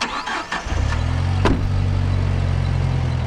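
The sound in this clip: Car engine cranking and catching, then settling into a steady idling hum, as the car sets off for a blue jeans laundry on the outskirts of a city.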